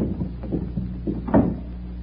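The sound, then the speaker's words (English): A door leading out to a garden is opened: a few soft knocks, then a louder, brief clunk past the middle, over a steady low rumble. “This door leads to the garden. Now follow me.”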